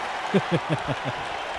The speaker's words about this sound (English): And another German suplex. Really fucking popping the audience there, too.